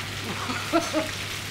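Schnitzels frying in a pan, a batch of twenty for a catering order: a steady, even sizzle and hiss with faint crackling pops throughout.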